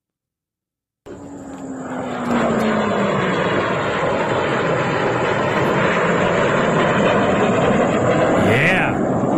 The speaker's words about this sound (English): It's a joint strike fighter on its way back from Tehran after delivering a huge payload.